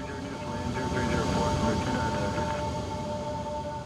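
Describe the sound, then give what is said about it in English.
Steady, loud roar of a firefighting tanker aircraft, one of the DC-10 air tankers, taking off at an airport. A constant engine drone with a sustained whine swells slightly midway, with no voices. “one by one, the fire tankers at Mesa Gateway Airport took off to try to slow down the fire near Mexico”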